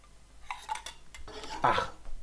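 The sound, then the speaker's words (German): A spoon stirs a drink in a glass, making a series of light metallic clinks and scrapes in an irregular rhythm that grows a little louder toward the end, with no voices. “Der ist übrigens gerührt und nicht geschüttelt.”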